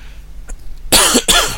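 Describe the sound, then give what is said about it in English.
Two harsh, loud coughs from a person with a croaky, irritated throat, coming in quick succession after a moment of near silence. “Sorry again about the constant coughing and croaking.”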